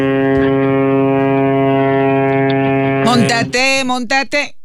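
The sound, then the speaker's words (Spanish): A ship's horn sounds one loud, steady, low blast with a rich buzzing tone, lasting about three seconds. It cuts off into a few short, jumbled sounds. “Ese aviso del barco. Hasta me asustó,”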